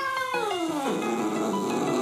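A cat meows once in a single drawn-out, harmonic call that slides downward in pitch, heard over steady background noise.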